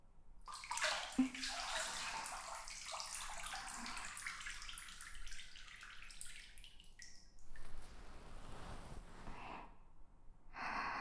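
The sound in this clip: Water splashing in a bath as someone's back is rinsed: a long rushing pour that gradually thins out, followed by a few shorter splashes and sloshes near the end.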